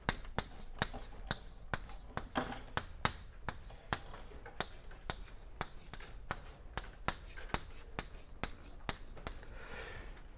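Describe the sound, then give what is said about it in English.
Someone writing by hand with a pen, many short, scratchy strokes and light taps in an uneven rhythm, soft and close, continuing throughout. “let me just write this down.”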